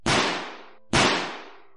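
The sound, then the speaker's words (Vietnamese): Two loud, sharp pistol shots are fired on a hotel's restaurant floor, a little under a second apart. Each has a long fading tail. “Hai phát đạn được bắn ra, khiến cả khu vực tầng 3 là tầng chuyên về nhà hàng ăn uống của khách sạn Crown giật mình.”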